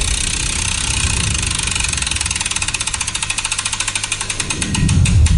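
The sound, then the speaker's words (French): A game wheel spins on a radio show, giving a rapid stream of ratcheting ticks that grow sharper and slower near the end, followed by a louder burst of low sound. “On va tourner la roue pour savoir à quel jeu on va jouer avec toi. Allez, c'est parti.”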